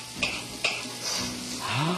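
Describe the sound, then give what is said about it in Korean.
Onion, garlic and green pepper stirred in a hot frying pan, a soft, steady sizzle broken by a few scraping strokes of the utensil, with no voices over it. “Let's put in our garlic, 마늘. And our green pepper, 우리 피망. And we stir.”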